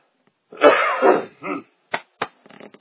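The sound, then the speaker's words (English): Throat clearing to clear phlegm during a sermon: a long, harsh, rasping clear, then a shorter gravelly one, a couple of sharp clicks and a brief rattling trail, with no talk. “I think I finally got that phlegm cleared from my throat.”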